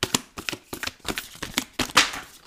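Oracle cards from a Starseed Oracle deck being shuffled: a quick run of papery riffling bursts and soft flicks, irregular in rhythm, with one brighter, hissier burst near the end.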